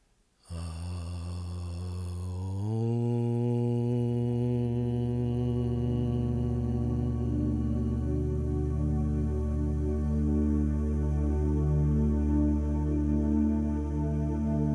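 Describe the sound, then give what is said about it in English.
A group chanting the syllable Aum to close a meditation: a single long, steady, low droning tone rich in overtones, swelling in loudness after the first couple of seconds and then held evenly to the end. “let's seal this meditation by chanting the hymn of the universe, Aum, just one time together. Take a long, slow, deep breath in.”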